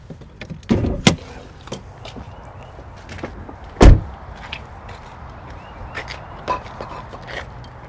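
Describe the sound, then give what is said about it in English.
A car hood's release pops open with one loud, sharp clunk midway through, set among several lighter clicks and faint handling noises. “We need to do something we call popping the hood.”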